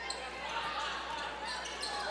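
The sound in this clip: A basketball being dribbled on the court during a boys high school game between Exeter and Berks Catholic, with many quick bounces under continuous spoken commentary.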